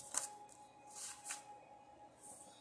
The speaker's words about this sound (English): So right now we have a Sagittarius here. Ooh, we've got cards flying all over the place.